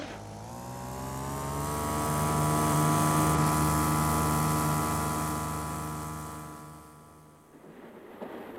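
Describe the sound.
A car engine is pushed to full throttle, giving a sustained harmonic drone that swells gradually in loudness and then fades toward the end, with a brief rougher noise at the close.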